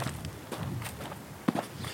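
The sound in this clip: Footsteps of someone walking toward the coast in Greece, a few steady, soft steps that stay faint under a constant outdoor background hiss.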